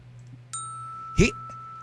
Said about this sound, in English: You might want to get the bell out.